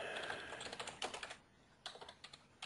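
Rapid typing on a computer keyboard while code is entered, with many quick keystrokes in bursts, a brief pause in the middle, then more clicks. No talk.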